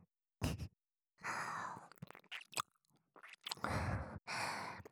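Wet mouth sounds of ear-eating ASMR come in soft bursts of sucking and smacking, mixed with breathy sighs and separated by short silent pauses.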